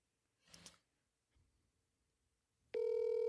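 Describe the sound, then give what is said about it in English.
A telephone call ringing out: a loud, steady electronic ring tone starts abruptly near the end and holds to the finish, after a short muffled rustle and near silence. “It rings out the whole time. I don't know why it's doing this right now.”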